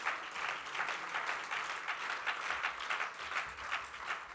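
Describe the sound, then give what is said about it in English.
An audience claps their hands during a church service, a dense and steady rhythmic clapping that stays fairly faint throughout, with no talk over it. “Oh, clap your hands to the Lord in this place.”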